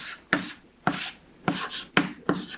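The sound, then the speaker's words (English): Handwriting strokes as something is written down to sketch a diagram of basic computer components: five short, scratchy rubbing strokes spaced roughly half a second apart, each with a sharp onset that tapers off, with no talk over them. “So, and if we write it down, it looks a little like this.”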